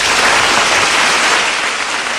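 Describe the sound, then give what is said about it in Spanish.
Thunderous applause greeting the end of a speech, a loud, dense and unbroken wash of clapping from many hands throughout. “Con un aplauso atronador se recibió el final de aquel discurso”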